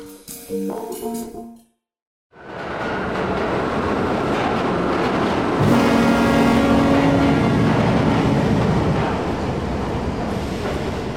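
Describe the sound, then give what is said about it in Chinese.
A train pulling into a station platform: a loud, steady roar of wheels and carriages that swells slightly midway, with a faint high squeal, following a brief burst of other sound and a moment of silence. “提醒各位旅客，在一九四二月台即将进站的是人生列车，还没上车的旅客请赶快上车。”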